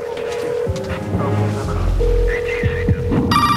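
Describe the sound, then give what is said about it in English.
Ringback tone of a telephone on an outgoing call: two steady, mid-pitched tone bursts sound over a low throbbing rumble, and a brief higher electronic tone comes at the end. “All right, call Danny again. Get him to change that deadline. Tell him Sabian's on his way. Farley picks up the phone.”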